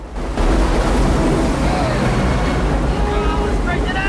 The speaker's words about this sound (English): The waterfall is made up of one small drop, and then a huge one just a few feet after that.